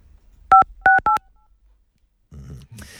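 Three telephone keypad tones entering a three-digit code for a new phone, sounding as short, clear beeps in quick succession, followed after a pause by a fainter, noisier sound.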